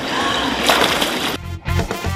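Water sloshing and splashing as someone dives in during a mermaiding session. A continuous churning wash breaks off briefly, then a few further splashes follow.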